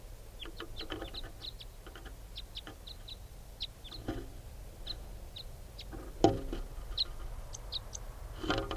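Faint, high chirps from a type 5 bird, a juvenile female, repeat many times in quick, irregular bursts over a steady low background hiss, with one slightly louder knock partway through.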